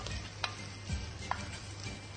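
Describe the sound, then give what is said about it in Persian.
Meat and onions frying with garlic in a pan, giving a soft, steady sizzle with a couple of faint clicks of stirring. “وقتی که گوشت با پیاز کمی تفت خورد و سیر،”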